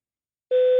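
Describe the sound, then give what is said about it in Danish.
A voicemail beep tone on a phone call, a single steady electronic tone that starts abruptly and holds at constant pitch and loudness. “Læg en besked efter tonen.”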